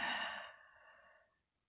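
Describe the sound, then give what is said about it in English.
A deep, audible breath out through the mouth during a guided relaxation, a single airy exhale that starts strong and slowly fades away over about a second and a half. “Now, take an extra deep breath in through your nose and an audible deep breath out through your mouth.”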